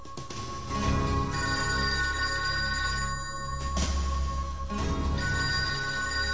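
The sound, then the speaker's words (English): A telephone rings in a house where detectives wait beside recording equipment. The ringing is steady, bright and fairly loud, with no voices over it. “answers the phone”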